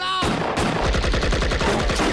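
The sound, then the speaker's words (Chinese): Wild, random gunfire in a wartime battle comes as a dense burst of loud shots fired in rapid, overlapping succession with no pause. “羞辱交加的山崎忍不住了，一阵胡乱的射击之后，铁桶子慢悠悠地缩回地下。”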